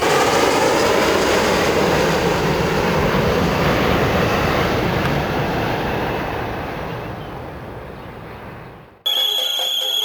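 Inside an airplane cabin during a flight, a steady, loud engine roar drones on without a break. It thins slightly over time, then cuts off abruptly near the end.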